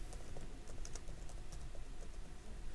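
Typing on a computer keyboard, as someone enters data into a query view, comes through as a fast, faint patter of light key clicks under a steady hiss.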